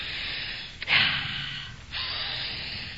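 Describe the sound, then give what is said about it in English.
Deep breaths of fresh air drawn by a person: long, airy, hissing breaths with a sharper gasp-like onset, sustained and fairly soft, with no talking. “First, a few deep, deep breaths of fresh air.”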